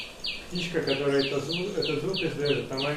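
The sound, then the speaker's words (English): A tiny sunbird calling in a rapid run of many high, thin chirps, each sliding sharply downward in pitch, repeating at a quick, even pace while a voice talks underneath. “The bird making that sound is a little tiny sunbird.”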